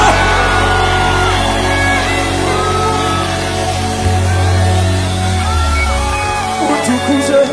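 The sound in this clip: Members of a church audience ululate during worship. Loud, sustained high warbling cries overlap with shouts and mixed crowd voices, continuing without pause.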